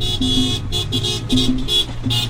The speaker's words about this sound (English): A 60-car caravana weaves its way through a Puerto Rican neighborhood in Orlando.